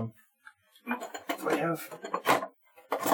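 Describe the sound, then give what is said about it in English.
Knives being rummaged among barware, including a small fruit knife with a channel below the blade for cutting twists, produce several metallic clinks and rattles mixed with speech. “I have like 17 here. Oh, there's my channel knife.”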